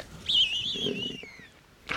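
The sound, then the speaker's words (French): Bearded vulture call: a thin, high whistling cry that wavers and then glides downward for over a second, followed by a short second call at the end. “c'est un cri de vautour, ça doit être le gypaète”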